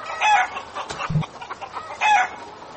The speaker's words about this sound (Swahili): walikuwa na kibarua kigumu Alhamisi wiki hii cha kuwafukuza mamia ya kuku waliokuwa wakizurura kwenye mitaa ya mji wa Puyallup, county ya Pierce, bila kujulikana walikotoka.